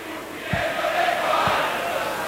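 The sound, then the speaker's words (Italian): Home football fans in the stadium late in a match make a diffuse, steady crowd roar of chanting and noise at moderate loudness, swelling slightly in the middle. “Fa sentire i tifosi di Casa”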